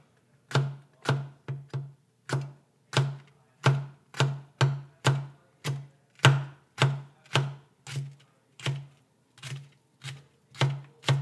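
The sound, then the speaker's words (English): A knife thinly slices a seeded jalapeno pepper on a cutting board, making a steady run of many crisp, evenly spaced chopping strokes with no talking. “to the red onion, I'm adding one jalapeno pepper, very thinly sliced.”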